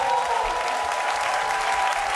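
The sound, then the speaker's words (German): Audience applause at a live show as a participant is thanked, dense and loud steady clapping throughout with no voices over it. “Bitte steh auf, hol dir deinen Applaus. Riesengroßer Applaus für Norbert!”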